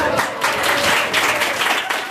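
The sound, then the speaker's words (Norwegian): Applause from an audience for a tour company receiving a service award, a dense, steady wash of clapping that holds at an even level for about two seconds. “vi kan alle gi en stor applaus til Nordkapp Tours.”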